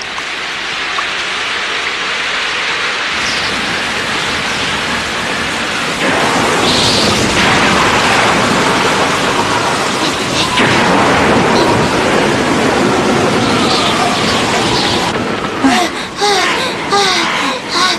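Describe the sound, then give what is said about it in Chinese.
Heavy rain pours down in a 1987 Cantonese TV cartoon scene as a thunderstorm sets in, a dense, steady hiss of falling water that grows louder about a third of the way through, with a few sharper splashes and bursts near the end. “哎呀，下雨啦！”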